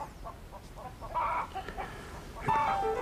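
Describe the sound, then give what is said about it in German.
Small chickens cluck faintly in a few short bursts of soft clucks and chirps over a quiet, noisy background. “Du, deine kleinen Hühner rücken ab. Sind nicht meine. Zieh ich für Mäuschen groß.”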